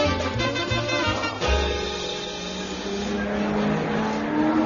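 A race car engine roars through a race, a loud, continuous buzzing drone with shifting pitch and a brief surge around the middle, heard alone.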